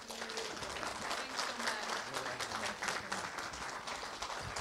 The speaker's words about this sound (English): But let's just give them a heartfelt, warm welcome.